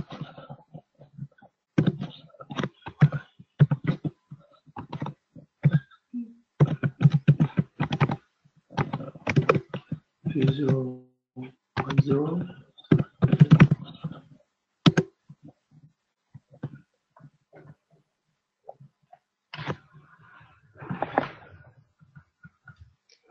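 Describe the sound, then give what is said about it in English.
Typing an IP address on a computer keyboard: many quick, light keystroke clicks in irregular bursts separated by short pauses. “I hope I get the IP address correct. 192.168. Ah, I typed it wrong.”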